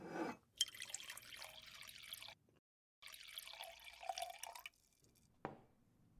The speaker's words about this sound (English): I'll wash it down with some more wine. You need more? I'll top us both off.